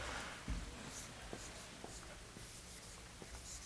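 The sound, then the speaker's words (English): Faint scratching of someone writing on a board, a few short scraping strokes at low volume with no talk. “I want to write just one thing up on the board from the outset and see if this”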